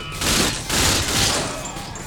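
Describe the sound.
Gunfire in a video game shooter, a loud, dense volley that swells in about three sustained surges with no clean gaps between shots.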